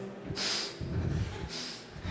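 A group of people draw deep, forceful breaths together during a breathing exercise: two strong, airy inhales, each lasting about a third of a second, with no speech.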